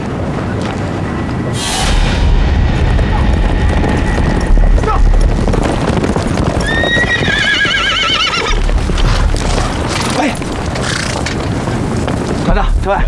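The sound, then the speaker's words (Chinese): A horse whinnies in a wartime army regiment, giving a loud, wavering neigh over steady hoof clip-clops and a constant rough, wind-like rumble. “把你马牵好了”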